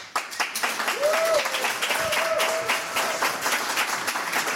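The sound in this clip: A live audience applauds a musician being welcomed on stage: dense, steady clapping throughout, with some voices mixed in.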